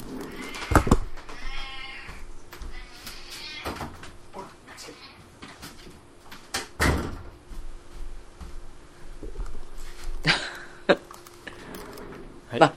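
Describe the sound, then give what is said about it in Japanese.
A pet cat meows a few times, giving loud, harmonic cries mixed with sharp clatters and knocks. People talk over and between the cries. “ちょっと待ってください。うちの猫がうるさいんで。”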